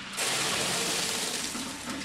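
Three-month-old oysters pour from metal tubs into a sorting machine near the mouth of the Chesapeake Bay. They make a steady, dense rushing and splashing wash that holds evenly for about two seconds.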